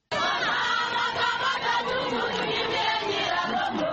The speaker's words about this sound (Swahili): Wananchi wilani Nyiragongo na Masisi wakimpokea Waziri Mkuu wa Jamhuri ya Demokrasia ya Kongo Sama Lokonde akitembelea wakazi walioathirika na mlipuko wa volkano tarehe 22.